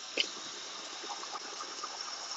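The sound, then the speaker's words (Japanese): Steady running water, likely from a tap, as a roughly 30-year-old ramen bowl is washed after a meal of tomato curry. It is a continuous, even hiss that stays moderately loud throughout, with no talk. “今、ラーメン鉢を洗ってます。”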